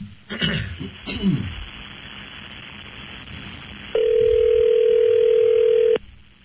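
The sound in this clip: A telephone line is heard during a long-distance call being dialed. A few brief, rough, throaty bursts and a low hiss give way to a loud, steady, single-pitched tone lasting about two seconds, which then cuts off abruptly.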